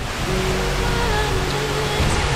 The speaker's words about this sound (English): The rainbow at the bottom of the waterfall. What? That's amazing. Let's get right in there, hey?